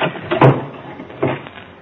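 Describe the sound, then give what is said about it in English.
A closet door is closed and locked: two brief, solid clunks stand apart from each other against a quiet background. “I dragged his body into the closet and locked the door.”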